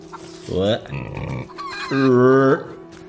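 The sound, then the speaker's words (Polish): Pigs in a chicken-coop farm building in a video game give two drawn-out, nasal squealing grunts, with a rougher, lower snorting sound between them. “A nie, to jest jakiś kurnik. O, świnka. Nawet dwie.”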